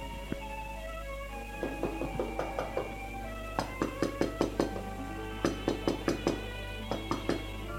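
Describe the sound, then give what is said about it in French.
Knocking on a door comes in several quick bursts of sharp raps, separated by short pauses, over a soft, sustained musical background. “On a frappé à la porte.”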